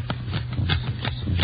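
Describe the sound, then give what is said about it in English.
Playing cards are counted out and handled during a card game, with a hand of fifteen being dealt. Soft, crisp card snaps and slides repeat in a quick, fairly regular rhythm with no talking. “Okay, count your cards. That gets 15.”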